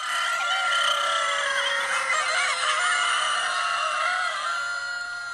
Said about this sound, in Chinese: 听到这个声音，您就知道我们来到了一间鸡舍，这里是全场最热闹最有味道的一个赛道。